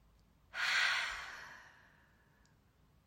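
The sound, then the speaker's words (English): A deep breath taken during a guided in-through-the-nose breathing exercise: a single airy rush that starts abruptly, then slowly tapers off over a second or two, heard alone without talk. “Okay, we're gonna do in through the nose, hold for 3, exhale. Are we ready? Breathe in.”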